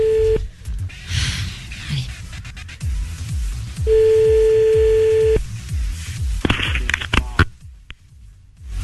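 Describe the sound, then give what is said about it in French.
A telephone tone after a call is hung up: a short steady beep, then a longer sustained tone, heard over a low, rhythmic thumping background. “Je crois que tu t'es fait raccrocher à la gueule.”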